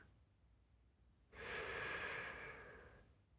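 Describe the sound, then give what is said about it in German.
A single deep, greedy intake of breath on a quiet summer night by a wood fire above Lago Maggiore. It rises suddenly out of near silence, holds for about two seconds, then fades. “ich nehme einen tiefen, gierigen Atemzug”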